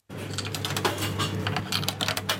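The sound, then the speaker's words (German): Rapid irregular clicks and mechanical rattling over a steady low hum from a milk vending machine in a farm shop in Speicher, Switzerland, filling a one-litre glass bottle after coins are inserted. No voices are heard. “Das nötige Kleingeld eingeworfen und schon füllt der Milchautomat einen Liter Milch in eine Glasflasche.”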